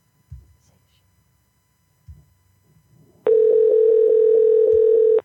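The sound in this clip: Telephone dial tone heard while placing a call: a loud, steady, unbroken tone sets in after a few soft low thumps and holds for about two seconds until the end.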